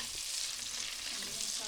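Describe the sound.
Bacon and boned leg of lamb, rubbed with a spice mix, fry in a pan with a continuous, even, bright sizzle and hiss that stays steady throughout, with no talk.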